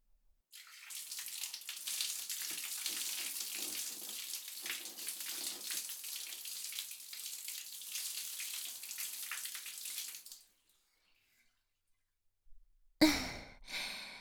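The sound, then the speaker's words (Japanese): Hot water from a bath bucket pours down during a rinse, a steady splashing rush for about ten seconds that then stops. A short, louder burst of noise follows near the end. “それじゃあ一通り洗ったから、桶のお湯を使って流していくね。”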